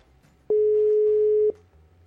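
A telephone line tone on an unanswered call: a single steady electronic beep lasting about one second, starting and stopping abruptly between quiet stretches, with no talking.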